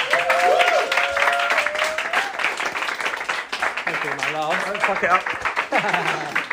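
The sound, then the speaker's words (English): A comedy-night audience claps to welcome a stand-up comedian to the stage, keeping up loud, steady applause throughout, with cheering voices rising over the clapping. “Please put your hands together and welcome Mr. Ash Frith!”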